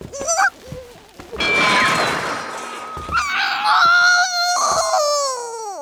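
A young person screams after eating garlic toast, letting out a few loud, shrill, drawn-out cries and wails with a wavering pitch, the last one trailing off.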